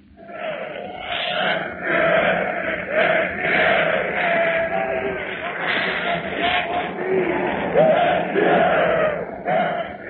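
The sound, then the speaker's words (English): A large crowd in Warsaw welcoming Mikolajczyk, a continuous loud roar of many voices cheering and shouting throughout, rising and falling in waves. “Listen to the welcome given to Mr. Mikolajczyk as recorded from Warsaw in the recording rooms of the BBC.”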